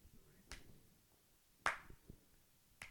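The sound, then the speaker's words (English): Three sharp, faint hand claps spaced about a second apart, the middle one loudest, alone with no talk. “It's the Joker's clap.”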